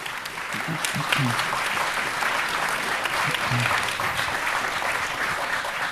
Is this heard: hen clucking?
no